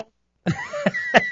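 A single harsh cough bursts out, followed by a few throat-clearing and voiced vocal sounds, short and fairly loud.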